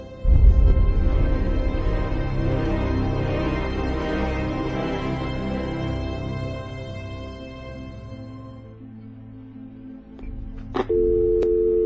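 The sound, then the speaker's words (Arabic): An unanswered telephone call sounds as a steady, buzzy electronic tone held for several seconds, dipping and fading late on, followed by a couple of brief sharp beeps and a new steady tone. “بقى كل الناس مش بترد على التليفون، وفي الاخر يسخروا مني ان انا ما بردش.”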